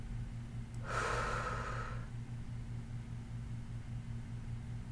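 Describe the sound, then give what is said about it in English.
A single slow, deep breath during a guided breathing exercise: a soft, airy rush lasting about a second, faint over a steady low hum. “Breathe in two, three, four. Exhale, four, three two, one.”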